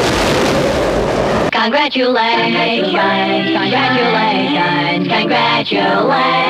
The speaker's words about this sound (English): Jingle number 1. It's blast off time, we're going into orbit.